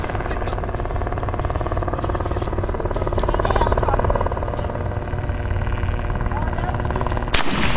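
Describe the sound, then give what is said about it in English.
A shotgun fires once near the end, a sharp, sudden blast cutting through a loud, continuous rumbling roar that fills the whole stretch. “You gonna try the shotgun?”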